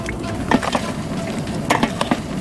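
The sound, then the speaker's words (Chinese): Crispy chicken pieces stir-fry over high heat in a wok with Sichuan pepper and dried chilies, giving a steady, dense sizzle with a few sharper knocks from the wok or spatula. “与花椒、干辣椒一同大火爆炒，香味融合，锅气十足。这口锅比炮阵地还热闹。”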